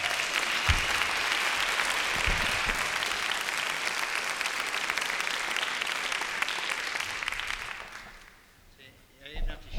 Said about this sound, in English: Give him a big hand.